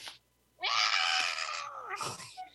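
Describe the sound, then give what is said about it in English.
A cat gives a loud, strained meow that sounds like a scream, one long harsh cry that sags slightly in pitch. A shorter second yowl follows right after, with no voices. “His meow is cute. Mine is, my cat's is meow. It's like she screams. She scream meows.”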